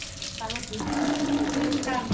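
Tap water runs steadily while something is rinsed clean during apem making, a continuous splashing hiss of moderate loudness that stays even throughout.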